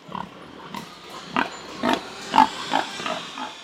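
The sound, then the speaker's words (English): Pigs grunting and oinking on a piglet-raising farm: many short, rough grunts come in an uneven series, moderately loud, with no voices. “This operation is all about raising piglets”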